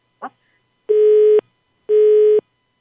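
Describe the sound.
Telephone busy tone on a failed call: after a short click, two steady mid-pitched beeps of equal length sound, separated by an even gap of silence.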